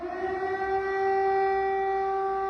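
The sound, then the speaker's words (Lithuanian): Civil defense warning siren sounding during a city test, part of a nuclear accident readiness drill: a loud, steady wailing tone held at a constant pitch with strong overtones, sounding alone without voices. “Taigi miestuose 3 minutės gaudė išbandomos pavojaus sirenos.”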